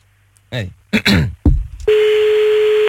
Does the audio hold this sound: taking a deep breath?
no

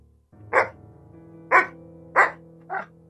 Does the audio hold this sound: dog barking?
yes

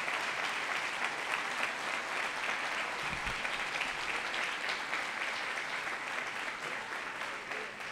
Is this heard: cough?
no

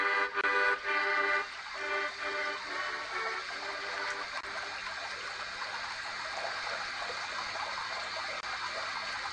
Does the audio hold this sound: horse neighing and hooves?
no

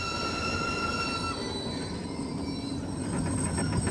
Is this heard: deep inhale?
no

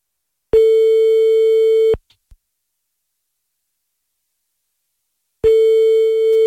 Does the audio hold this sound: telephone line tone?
yes

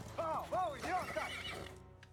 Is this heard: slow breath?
no

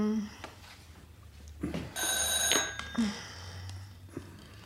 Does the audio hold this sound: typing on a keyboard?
no

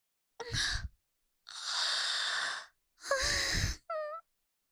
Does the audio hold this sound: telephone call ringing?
no

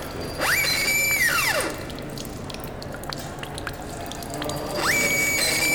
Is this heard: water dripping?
yes

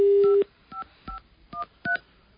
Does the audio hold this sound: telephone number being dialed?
yes

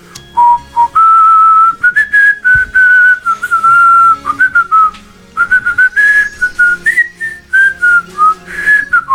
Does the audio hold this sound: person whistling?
yes

